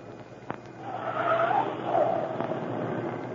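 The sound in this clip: A car turns into a driveway as a radio drama sound effect, with a low engine rumble and a swelling scrub of tires over gravelly noise that rises and then eases off.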